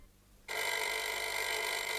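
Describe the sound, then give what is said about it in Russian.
After a brief near-silence, a telephone starts ringing abruptly with a continuous, bright, trilling bell tone that holds steady and loud to the end. “Комиссар сидел с капитаном Пийманом в его доме в Неморе и обсуждал минувшие события, когда раздался телефонный звонок.”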